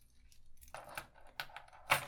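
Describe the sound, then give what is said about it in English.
Keys jangling in an office: a few short, faint metallic rattles separated by near silence, with no voices. “One last chance. You want these keys?”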